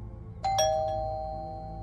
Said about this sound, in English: The doorbell sent a zap of adrenaline through Kara's body